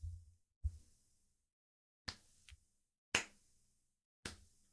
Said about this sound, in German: dem Applaus, dem langsamen Applaus von Helios, den ihr dort stehen seht.